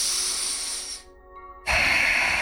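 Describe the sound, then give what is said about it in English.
Deep, heavy breathing by a man: a long, hissing breath fades into a short silence, then a second, louder and rougher breath starts abruptly and holds steady, with no talk. “He breathes, just sort of very deeply”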